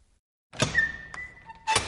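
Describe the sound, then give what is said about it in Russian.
A door at a railway station is flung open with a soft clunk, a thin high squeak, a small tick, then a second, louder thump. The sounds are fairly quiet and there are no voices. “Он распахнул дверь и вышел на привокзальную площадь.”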